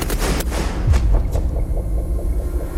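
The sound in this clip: A firing squad's rifle volley at an execution in a fort south of Paris, a loud booming report over a heavy low rumble that persists throughout.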